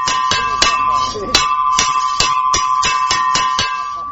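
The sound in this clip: A school recess bell rings at a major school in Lashkar Gah: a loud, continuous metallic tone broken by many sharp clanging strikes in a quick, uneven rhythm.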